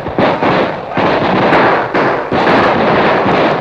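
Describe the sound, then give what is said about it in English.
Gunfire volley as kneeling outlaws fire and an advancing posse answers, a dense, loud barrage of rapid overlapping shots broken by a few brief gaps. “the outlaws suddenly dropped to their knees, drew their guns, and fired, to be answered almost immediately by the advancing posse.”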